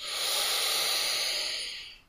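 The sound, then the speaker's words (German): One long, audible inhale through the nose during a guided breathing exercise. The airy hiss swells quickly, holds steady for about two seconds, then tapers off at the end, with no talk. “Und ein letztes Mal durch die Nase einatmen.”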